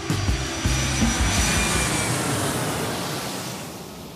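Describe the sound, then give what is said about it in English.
An airplane takes off with a broad, rushing engine roar. Low engine tones are prominent at the start, then a steady whooshing drone takes over and slowly eases in loudness. “So buckle your seatbelts and make sure your tray tables and seats are in their upright positions as part two of Melissa's round trip story gets ready for takeoff.”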